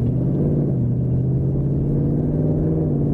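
A Ford Mustang engine with a 10-speed automatic gearbox gives a loud, deep, continuous rumble, a steady low drone holding an even pitch throughout, with no voices.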